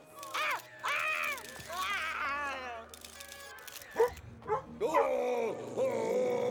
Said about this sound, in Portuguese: Cachorro mal, cachorro mal.